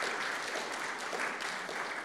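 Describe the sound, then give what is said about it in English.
Audience applause welcomes a speaker to the stage at a church fifth-birthday celebration, with dense, even clapping that stays loud throughout without a break. “We can put our hands together and welcome Michelle.”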